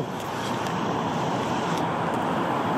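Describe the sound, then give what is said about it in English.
Road traffic makes a steady, dense roar of passing vehicles, even and unbroken for the whole moment with no voices. “Look, there's already traffic.”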